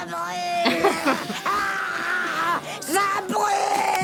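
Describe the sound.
A child screams and yells in high, wavering cries, several bursts rising and breaking off in a loud, frantic run with short gaps between them.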